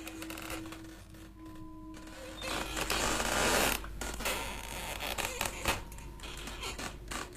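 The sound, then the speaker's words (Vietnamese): Creaking, scraping strain comes from a crowbar prying up a wooden coffin lid that is nailed shut. The grinding stays faint, swells into rougher scraping midway, then continues in uneven bursts. “cánh thợ cầm cái nậy bắt đầu kê vào nắp ván thiên. Ông này nghiến răng nghiến lợi mà cậy.”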